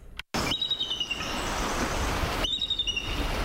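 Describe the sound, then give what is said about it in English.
Two quick bursts of rapid, high-pitched bird chirps cut through a constant rushing background noise, with a quieter gap between the chirping runs. “That's a bird for sure.”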